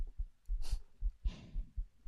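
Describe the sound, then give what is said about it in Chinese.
A heartbeat of soft, low thumps in a steady, fairly quick rhythm, faint throughout, with two breathy hisses rising over the pulses. “她说，心跳声会让人安心下来。”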